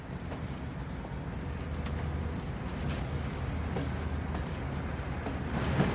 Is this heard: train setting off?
yes

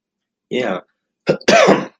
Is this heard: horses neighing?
no

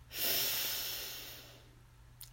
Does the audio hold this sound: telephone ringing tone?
no

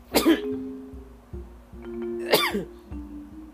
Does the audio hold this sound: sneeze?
yes

